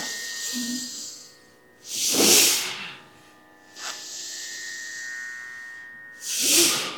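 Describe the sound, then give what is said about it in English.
Forceful breaths through the nose during Bhastrika Pranayama produce a few loud, airy hissing bursts with quieter stretches between them, over a faint steady hum. “When you breathe in, try to fill the entire lung volume. Very good. And breathe out through the nose. Very good. My God, are you good in Bhastrika Pranayama?”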